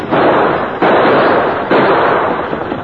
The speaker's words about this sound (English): Both Purdy and the masked man fired again, exchanging shots, then fired again.